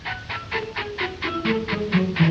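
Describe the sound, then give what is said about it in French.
Steam locomotive arriving, with rapid, evenly spaced chuffing bursts that grow louder toward the end, accompanied by low sustained tones. “Voilà qu'il arrive avec sa locomotive. On l'entend fort bien, le voilà qui vient.”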